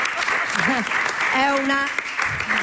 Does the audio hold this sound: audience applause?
yes